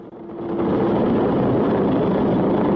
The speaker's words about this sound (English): Coogan and Ringerman board the helicopter as Julie heads back across the landing pad.